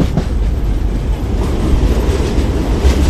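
Train entering a tunnel on a railway line that descends in an S-shaped curve to a lower level: a loud, continuous rolling rumble with steady wheel clatter and no voices.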